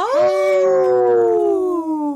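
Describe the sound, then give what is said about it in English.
A single wolf howl, one long clear tone that holds steady and then slowly sinks lower in pitch over about two seconds, heard alone without other sounds. “Howl! We have to always get that howl in.”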